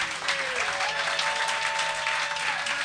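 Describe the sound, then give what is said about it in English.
Audience applause welcoming comedian Richard Herring on stage at the Stand Comedy Club during the Edinburgh Fringe: dense, steady clapping that holds loud and even throughout with no break. “Ladies and gentlemen, this is the Stand Comedy Club. Please give a warm welcome for Richard Herring!”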